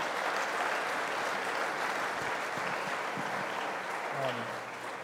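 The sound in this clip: An audience applauds to welcome a speaker to the platform, producing steady, sustained clapping at an even level throughout, with a brief voice near the end.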